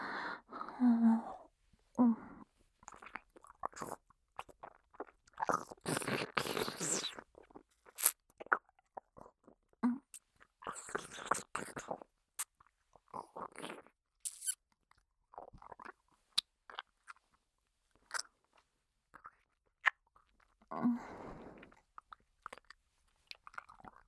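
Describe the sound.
Close-up eating of a sticky food: many bursts of wet chewing and crunchy bites in an irregular rhythm, separated by quiet gaps, with occasional soft breaths.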